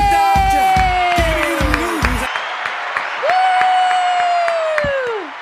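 A studio audience applauds and cheers in a dense, steady wash of clapping, loud throughout, mixed with gliding tonal sounds and a few thumping beats, fading slightly at the end.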